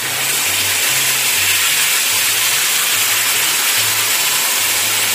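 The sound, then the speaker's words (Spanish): Blended salsa poured into hot oil over seared pieces in a pan sizzles with a loud, dense, steady hiss. It holds evenly from start to finish without a break. “ahora sí vamos a verter la salsa que hemos licuado. Ahí va.”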